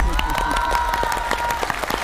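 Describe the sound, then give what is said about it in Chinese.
Applause from a group of newly selected participants at a national music talent training camp clapping for themselves: many quick, uneven claps blending into a dense, lively patter over a faint steady hum. “给自己鼓鼓掌”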